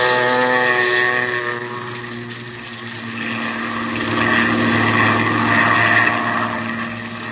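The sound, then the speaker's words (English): A seaplane's propeller engine drones as the aircraft skims across a bay toward the Gulf. The hum is steady and rich in harmonics, dips briefly, then swells louder for a stretch before easing slightly, with no voices. “you wade out to the plane, and a few minutes later, you're skimming across the bay, headed toward the Gulf.”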